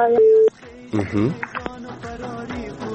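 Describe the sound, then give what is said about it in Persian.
A steady telephone line tone sounds after a caller's line drops. It is a single loud, level, mid-pitched note lasting a fraction of a second, then gives way to a man talking. “بله بله فکر میکنم تماس شنونده ما قطع شده”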